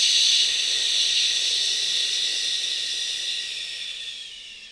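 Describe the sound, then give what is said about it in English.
Deep, slow breathing during a guided breathing exercise: one long, airy, hissing breath that holds steady and then gradually fades. “And again, inhale and exhale.”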